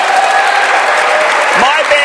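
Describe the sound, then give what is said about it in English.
Audience applause fills the whole two seconds, dense, loud and steady, with voices mixed into the clapping. “Yes, let's cheer for that.”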